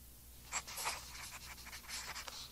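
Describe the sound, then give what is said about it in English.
Pen writing a postcard in a hotel room: a faint, steady scratching of nib on card in short bursts of strokes, with no voices. “When she got back to the hotel, Mrs. Morgan went up to her room for a little while and wrote a postcard to her children.”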